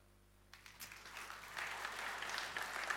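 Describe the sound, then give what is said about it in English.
Applause from an audience after a startup's virtual reality presentation: near silence, then clapping breaks out suddenly and swells into a steady, moderately loud round. “The applause is cool, I like it”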